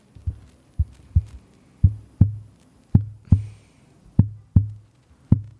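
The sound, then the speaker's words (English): A human heartbeat sounds as steady, fairly faint low thumps, many beats in paired lub-dub rhythm with short gaps between pairs, heard alone. “That's the sound of my heart beating for you, dear listener.”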